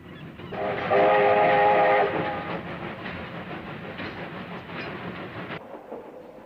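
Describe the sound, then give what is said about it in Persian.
A train at a railway station gives a steady, loud rumble and clatter. A sustained horn-like tone rises above it for about a second near the start. “ایستگاه راه آهن”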